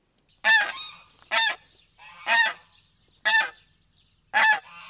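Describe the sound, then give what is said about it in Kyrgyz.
Geese honk in five loud, nasal calls spaced at a fairly even rhythm about a second apart, each fading quickly, with no voices around them. “Каздар катышат”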